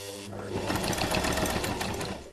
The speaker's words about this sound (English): Now that I've got my layers, I'm going to put them together and I'm going to sew them.